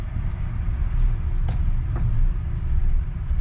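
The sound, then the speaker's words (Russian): Steady low engine rumble from a long car turning tightly on its steerable rear wheels, a continuous droning hum with a couple of faint clicks and no talking. “Очень маленький радиус разворота за счет того, что поворачиваются колесики.”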